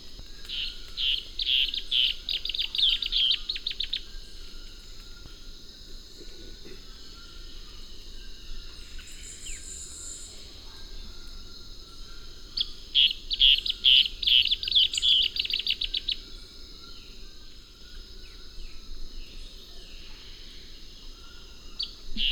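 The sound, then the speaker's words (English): Striated antbird calls: two bursts of rapid, high, repeated notes separated by a long quiet gap, set against a constant thin high drone and low background hiss. “Striated ant bird, 1.”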